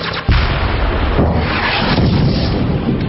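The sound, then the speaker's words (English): Weapons fire in a heavy barrage: a sudden loud boom breaks in, then a dense, continuous roar of blasts and rumbling explosions holds at high volume throughout. “Fire again. Fire everything.”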